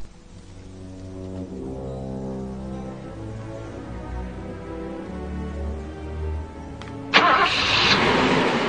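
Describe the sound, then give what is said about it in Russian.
A Zhiguli car engine started without a key gives a sustained low, humming mechanical rumble, then a sudden, much louder burst of broad noise near the end. “Тут ключей нет. Да ты чего? Жгуль без ключа заводится.”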